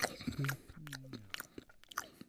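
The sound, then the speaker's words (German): A cat eats a mouse in a video game: quiet, irregular crunching and chewing effects with crisp clicks and a few short tonal squeaks, with no talking. “Du verwendest die Maus mit der Katze, die sie isst.”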